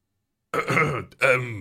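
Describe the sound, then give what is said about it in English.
A ship's captain clearing his throat: two short, rough, gruff bursts of guttural throat noise separated by a brief gap, with nothing else heard. “The captain clears his throat.”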